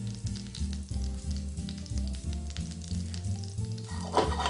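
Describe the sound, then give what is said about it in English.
Prawns sizzle in butter in a hot pan with a steady crackling hiss, louder in a burst near the end. A low, rhythmic music bed plays underneath. “We go right into our pan with these beautiful prawns.”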